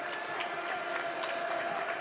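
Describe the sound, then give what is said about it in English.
Football crowd applauding an injured player as he walks gingerly to the sidelines. The clapping is a steady, moderately faint wash, blended with general crowd murmur. “Tying him up, gingerly walking back to the sidelines, accompanied by his medical bouncers. Good applause for him.”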